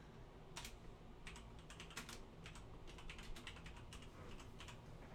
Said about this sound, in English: So type in USS Zumwalt. And then type in, like, cost per round.